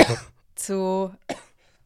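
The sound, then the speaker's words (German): A woman coughs a few times in short, harsh bursts with a voiced stretch between them, then falls quiet. “Warte kurz, bis sie fertig ist mit ihrem Husten. Entschuldigung, ich muss halt husten.”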